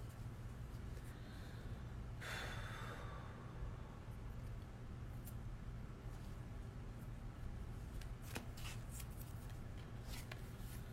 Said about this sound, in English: So I think we're ready to pull the first card.